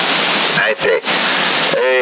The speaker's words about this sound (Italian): Io ho messo il microfono al mare, come mi sentite?